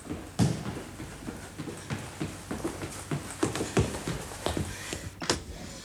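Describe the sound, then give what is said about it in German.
A horse-drawn carriage rattling up, heard as irregular clattering hoof and wheel knocks, some sharp and loud, others soft, spread unevenly across the stretch. “Doch horch, ein Wagen rasselt heran. Hält.”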